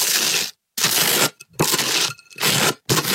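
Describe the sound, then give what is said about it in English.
Butter spread on toast with five rough, crunchy scraping strokes, each a short burst of gritty noise separated by brief silences. “Yeah, it's spreading butter on toast.”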